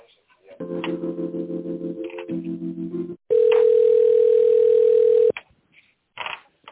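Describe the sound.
Telephone line tones while a call is being transferred: a buzzy pulsing tone that steps down in pitch, then a loud, steady tone lasting about two seconds, followed by a few brief clicks.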